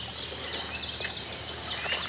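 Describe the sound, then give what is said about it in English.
Birds sing in a lush coastal setting of oaks, salt marshes and lagoons on the Georgia and South Carolina Sea Islands. Many quick, high chirps and tweets overlap in a steady chorus at moderate level. “The birds compose a symphony around you.”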